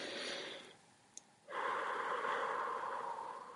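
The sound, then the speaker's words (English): A deep breath through a nose congested by a cold: two long, rushing, airy breath sounds separated by a short pause, the second fuller and more sustained, heard alone without talk. “I'm not going to do the deep breath today on the podcast because it's going to sound really bad. Oh, I can do it.”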